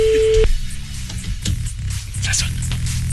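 A telephone line tone sounds as a call is placed: one short, steady, loud tone at the very start, then it cuts off and leaves low hum and static.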